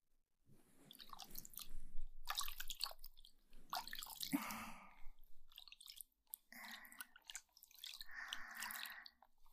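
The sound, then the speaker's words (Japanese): Close, squishy rubbing and wet clicking from an ASMR ear massage, arriving in a few uneven, soft bursts separated by brief pauses, with no talking. “そしたらお耳のマッサージ。”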